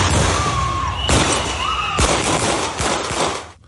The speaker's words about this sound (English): Here's the moments the shots rung out.